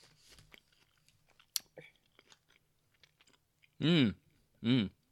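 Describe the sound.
Close-up chewing of plain Italian bread without herbs or cheese: soft, moist mouth clicks and smacks, quiet and irregular, followed near the end by two loud, drawn-out vocal sounds.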